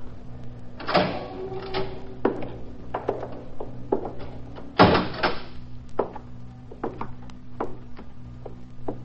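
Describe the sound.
A prison cell door is opened, with two loud scraping, rolling bursts and a series of sharp metallic clanks and clicks between them against a low steady hum.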